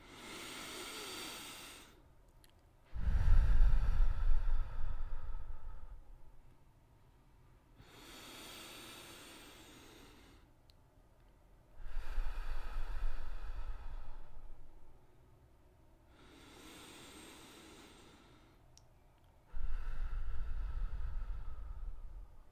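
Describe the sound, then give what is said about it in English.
Deep breaths in and out during a calming relaxation exercise: three slow cycles, each pairing a soft, airy breath with a louder, rushing one, separated by quiet pauses and no talking. “So we're going to take a deep breath in.”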